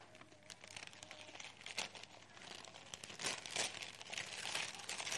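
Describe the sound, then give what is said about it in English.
Wrapping paper crinkles and rustles as a gift is unwrapped by two people together. The crackle is busy and continuous, growing slightly louder toward the end. “Do you want to unwrap that together?”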